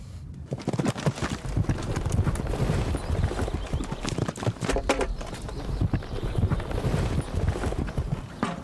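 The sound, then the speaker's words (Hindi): Horse hooves clip-clop as a horse is ridden, a steady, loud run of many hoof strikes keeping an even walking rhythm throughout. “सोचा भी नहीं था इतनी आसानी से ये सवार होने देगा। शुक्रिया। सारा ने तुम्हारे घुड़सवारी की बहुत तारीफ की है।”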